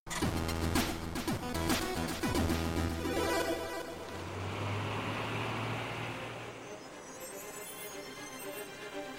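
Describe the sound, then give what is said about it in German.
A truck engine rumbles steadily in a video game cutscene as the vehicle drives along winding desert canyon roads, a low continuous drone under broad noise that stays loud throughout and eases slightly toward the end. “Der Truck fährt den Serpentin zum sogenannten Bullshead.”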